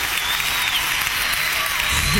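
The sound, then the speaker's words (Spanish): Applause from a theatre audience for the band: a dense, steady clatter of many hands clapping that holds an even, loud level throughout. “necesito un muy fuerte aplauso para toda la banda y toda la gente que está detrás de la banda”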